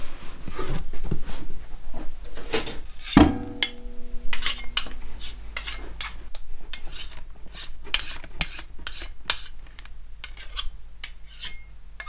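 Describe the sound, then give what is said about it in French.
Utensils clink and scrape while raw shea butter is weighed, producing many small taps and scraping noises. One louder metallic clank with a short ringing tail comes early on. “Après avoir pesé le beurre de karité, maintenant je vais peser le beurre de coco.”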